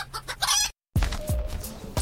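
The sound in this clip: Chickens cluck and a rooster crows in short, lively bursts, the calls broken by a brief moment of silence before resuming at moderate loudness.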